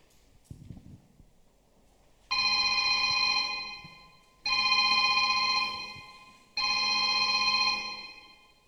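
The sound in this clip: A telephone rings three times. Each ring is a long, steady electronic trill of about two seconds, bright and evenly loud, separated by short silent gaps.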